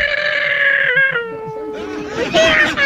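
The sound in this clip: A hoarse, raspy cat meow, loud and drawn out for nearly three seconds, with a strongly tonal, wavering pitch and a rougher, noisier ending.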